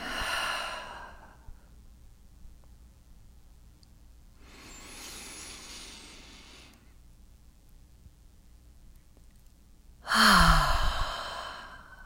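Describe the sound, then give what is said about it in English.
A full, audible exhale during a slow guided breathing exercise: soft, airy breath sounds drawn out over several seconds, then a louder, deeper breath near the end, with no talking. “And then audibly exhale fully.”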